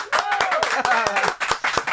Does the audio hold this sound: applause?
yes